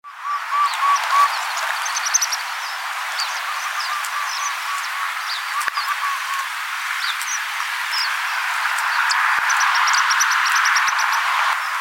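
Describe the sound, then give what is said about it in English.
Common Waxbill calls: many thin, high, buzzy chirps in quick bursts over a steady hiss, continuing throughout with the calls overlapping at times. “Common Waxbill.”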